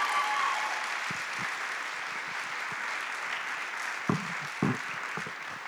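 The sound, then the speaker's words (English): An audience claps for a speaker coming up to the front, a steady wash of applause that eases slightly over time, with a couple of brief thumps near the end. “Okay, Sam, Father Shea. Let's hear it for Sam as she comes up.”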